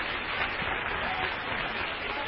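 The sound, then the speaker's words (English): Congregation clapping during a church worship service, a dense, steady wash of many hands that carries on without a break from start to finish. “Would you clap for the Lord?”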